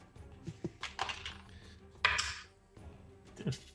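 Rattling clatter of a four-sided die rolled for damage during a tabletop role-playing game, a few quick clicking bursts of varying loudness with brief pauses between them.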